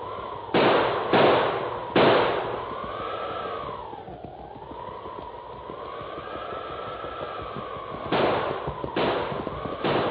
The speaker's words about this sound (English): Desperately, he pulled the heavy six-gun from under his mackinaw and began firing. Firing and reloading with numb fingers.